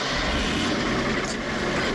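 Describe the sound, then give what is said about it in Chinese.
A military truck engine rumbles as the canvas-covered truck carries passengers toward Hami in the cold, a broad steady roar that holds constant throughout with no talk. “程子妍他们坐上了到哈密的军用卡车。”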